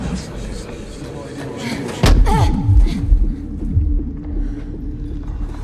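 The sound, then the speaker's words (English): A body slams into a transparent barrier in a dramatic scene. One sharp, heavy impact cuts through a dense, constant background, followed by a few lower, booming thuds that fade back into the rumble. “She tries to join them, but slams into a transparent barrier.”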